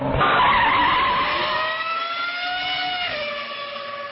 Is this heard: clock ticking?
no